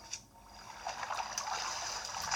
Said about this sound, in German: Ich bin ins Wasser gefallen. Hab dadurch den Fall-Damage gecancelt. Sonst wäre ich jetzt tot.